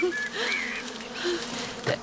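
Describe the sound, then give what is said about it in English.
A swarm of honey bees buzzes at a hive. Short, wavering buzzes rise and fall over a low background hum in a brief burst. “You need most of the swarm swept into the hive and the rest will follow.”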